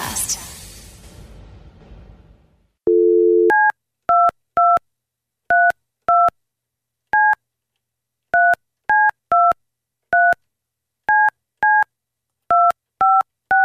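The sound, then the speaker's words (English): Telephone keypad tones for a long-distance call, many quick dual-tone beeps at an uneven rhythm, preceded by a short low steady tone and a stretch of fading hiss. “Super long distance. My God. I had to get a special calling card for this. The number you have dialed is not in service.”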